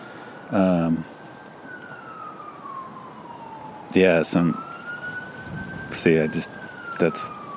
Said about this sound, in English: I guess it's the siren. I get distracted easy.